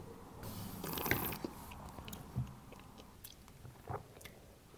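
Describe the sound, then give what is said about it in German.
Soft, wet mouth sounds as a sip of red wine is taken during a tasting: a few faint clicks and slurps over a low, steady hiss. “Ich muss mal einen Schluck trinken.”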